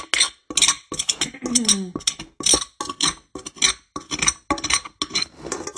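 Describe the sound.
Scraping a pan, with many quick rasping and clinking strokes repeating in a steady rhythm, fairly loud and with no talk over them.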